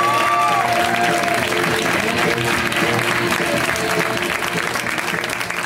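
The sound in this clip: Audience applause at a comedy show welcoming a comedian on stage, loud, dense clapping mixed with crowd noise that continues steadily and tapers slightly at the end.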